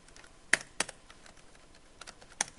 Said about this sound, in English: Yep, and I can type.